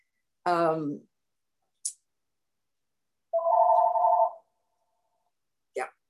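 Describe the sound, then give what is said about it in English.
A mobile phone ringing: a steady electronic tone of about a second stands out among a few brief chirps and clicks, with silence in between. “Oh, boy, sorry about that, guys. That's my phone, but it's going to ring three times and then it'll stop.”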